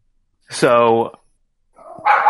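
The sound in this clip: Dogs barking: one drawn-out, tonal bark, then after a short pause a harsher, noisier burst. Both are loud and heard alone, with no talk over them.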